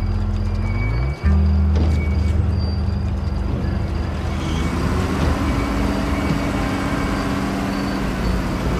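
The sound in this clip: A bulldozer reversing beside a freshly dug pit: a loud, continuous engine rumble with a brief dip near the start, then a steady, droning roar throughout.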